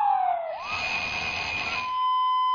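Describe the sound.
A siren wails. A short falling sweep at the start gives way to a steady, high electronic tone with a harsh, rough edge, sounding alone and fairly loud for about two seconds.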